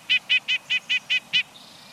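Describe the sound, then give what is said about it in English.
Nuthatch calling in a quick, evenly spaced series of seven harsh, nasal, high-pitched notes, clear and fairly loud, then the start of another note at the very end. “nuthatch's insistent call matches its aggressiveness.”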